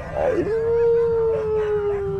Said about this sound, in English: follow my lead dog